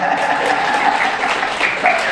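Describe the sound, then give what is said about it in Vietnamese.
Applause from an audience at a Buddhist dharma talk: a dense, steady patter of many hands clapping at even loudness for the whole stretch. “Nghe kiểu như là vỗ tay đi.”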